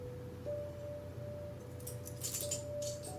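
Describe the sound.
A key hanging on a string being handled gives faint metallic jingles and light clinks, mostly near the end, over a steady low hum and a thin sustained tone.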